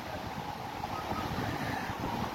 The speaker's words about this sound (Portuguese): Tô aqui na praia.